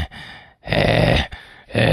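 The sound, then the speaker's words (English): A human voice imitates a bulldog's snorting, struggling breathing with rough, rasping snorts and wheezy grunts. The noisy bursts come in a few uneven pulses, some loud and some weaker, with short gaps between them. “have you ever just been in a room with a bulldog? They just sit there going,”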